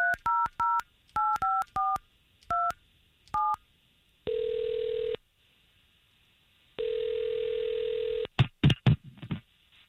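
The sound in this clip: Touch-tone telephone dialing: a series of short electronic beeps in irregular groups as a number is keyed in. Two long, steady ringing tones follow, then a few sharp clicks and rattles. No voices.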